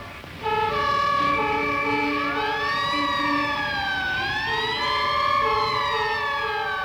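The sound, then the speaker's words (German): Several fire-brigade sirens wail together, loud and continuous. Their overlapping tones sweep up and down in pitch in slow, repeated waves. “Was ist das? Sirenen!”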